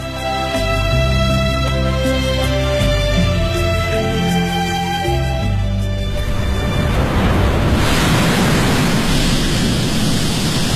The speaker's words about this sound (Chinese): 在他们的心目中，雄浑壮阔的钱塘潮水已成为杭州的象征。